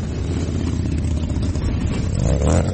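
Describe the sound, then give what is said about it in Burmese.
A dense, continuous low rumble comes from a huge crowd of motorcycles, around 900,000 riders, riding through Washington, D.C. at a veterans' memorial ride. The engines drone steadily and swell slightly toward the end. “ဆိုင်ကယ်စီးသူ9သိန်းလောက်ဟာမြို့ကိုလှည့်လည်မောင်းနေတာကြောင့်မိုးချိမ့်တန်လို့လဲကြားနေရပါတယ”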